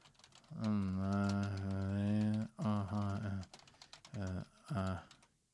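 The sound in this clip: Computer keyboard typing, with many quick, irregular clicks running beneath louder sustained tonal sound.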